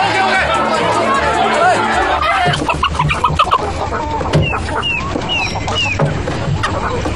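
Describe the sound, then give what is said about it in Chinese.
Chickens clucking, a run of short sharp clucks and squawks with several rising calls in the second half, heard over busy chatter as people talk. “看鸡啊，等鸡下蛋。”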